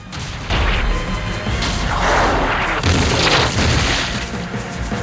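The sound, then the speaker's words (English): Several cannons blast at sappers cowering in a shallow trench during a fort siege, producing a loud, continuous barrage of heavy booms and rumbling blasts that overlap for the whole stretch with no pause. “The cannon and several others like it blast away at the sappers, causing them to cower in their shallow trench.”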